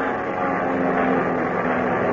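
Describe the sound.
A propeller airplane climbs steeply ahead of a storm, giving a continuous, loud, even droning roar with a faint steady hum inside it and no break or talk over the whole moment.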